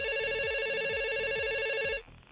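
A telephone rings for an incoming call: a loud, steady electronic warbling trill that repeats evenly for about two seconds and then cuts off.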